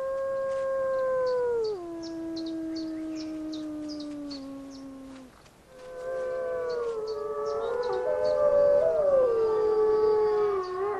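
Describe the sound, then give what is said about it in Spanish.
Wolves from a captive pack howling: long, sustained tones that slide downward in pitch, then after a brief pause several voices overlap in a wavering chorus. “Los aullidos son una manera de comunicarse con otros lobos, incluso a distancias de hasta 16 kilómetros.”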